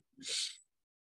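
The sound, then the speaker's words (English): A single deep inhale taken during a meditation chant: one breathy hiss lasting about half a second, clear and alone against silence. “Namo Gurudev Namo. Inhale.”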